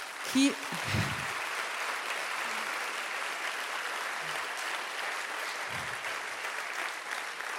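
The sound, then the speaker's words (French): Audience applause at a congress, steady dense clapping that holds at an even level throughout, with a few brief voices rising out of the crowd. “On peut les applaudir”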